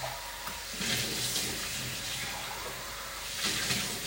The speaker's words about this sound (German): Ich spüle die nochmal aus, die Tasse.